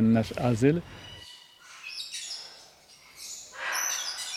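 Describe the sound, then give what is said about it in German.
A rice finch and several kinds of parrots chirp in a bird shelter, giving high, thin calls and twittering phrases. A voice is heard briefly at the start, before the bird sounds continue alone at a moderate level. “Das ist ein Reisfink. Wir haben hier verschiedene Papageienarten.”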